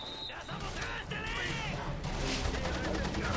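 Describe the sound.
Gunfire in a shooter video game, a dense, continuous clatter of rapid shots and crashes with no clear gaps between them.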